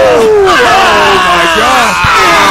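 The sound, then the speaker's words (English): Wrestling crowd going wild after a moonsault, a loud, continuous roar of yells and cheers with several voices sliding downward in pitch. “And the crowd just going wild. This is awesome.”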